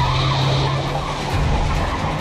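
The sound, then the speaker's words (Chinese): A truck accelerates into a sharp turn with its tires squealing, a loud, dense roar of rubber and engine noise that holds steady throughout, with no voices. “小黑答应了一声，一脚油门，卡车转进了黄河路”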